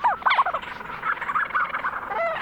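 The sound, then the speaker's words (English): A flock of Leach's storm petrels calling on Kent Island in the Bay of Fundy, with many overlapping chattering, croaking notes in quick, uneven bursts that run on continuously. “Lang Elliott recorded this flock of Leach's storm petrels on Kent Island in the Bay of Fundy.”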